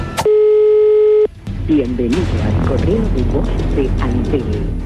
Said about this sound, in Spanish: vamos a llamarlo hoy por última vez. Si no atiende, le dejás un mensaje